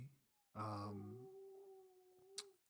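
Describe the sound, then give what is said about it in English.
A pet dog howls in one long wail that begins full and loud, then narrows into a thin, high, sustained whine that slowly fades before a brief sharp click at the end. “if that noise you hear my dog, I apologize for that.”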